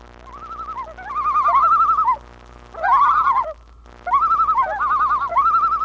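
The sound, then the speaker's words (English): Common loon calling in a wavering, yodel-like tremolo. There are three mournful phrases with short silences between them, each quavering up and down at a mid pitch and rising in strength as it goes. “This is the call of the common loon.”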